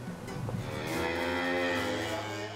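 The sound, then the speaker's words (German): A beef cow on a farm on the island of Amrum gives one long, low moo as the cattle are moved to summer pasture. The call swells and holds steadily to the end, after a brief softer grunt. “Heute kommen die Rinder auf die Sommerweiden.”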